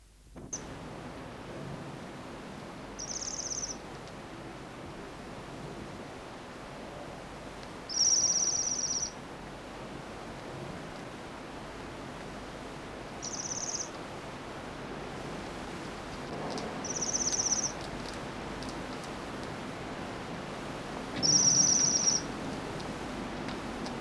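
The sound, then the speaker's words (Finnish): A flock of waxwings gives soft, high trilling calls: five brief sibilant bursts spaced several seconds apart over a steady background hiss. “Tilhen ääni on pehmeää sirinää, joka aina kuuluu tilhiparvista.”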